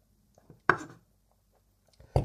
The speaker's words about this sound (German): Also wie gesagt, ich schneide jetzt hier gerade den Mozzarella ein bisschen klein, damit man den dann alles schön vermengen kann.